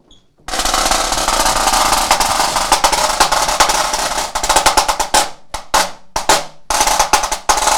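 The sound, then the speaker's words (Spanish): A high-tension snare drum with a Kevlar head is played in a loud, crisp, sustained roll that breaks into sharp separate strokes and short bursts, with brief gaps between them. “Que este es un snare. Snare drum. Snare drum de alta tensión. Esto que ven aquí es Kevlar. A ver, entonces enséñanos cómo suena.”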